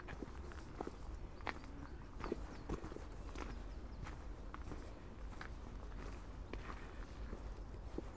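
Footsteps of someone out on a walk beside a hedge, a steady run of many light, even steps over a constant low outdoor rumble.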